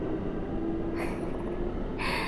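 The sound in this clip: Low, continuous rumble from inside a moving train, with a steady hum running beneath it and two brief hissy bursts that break through toward the end.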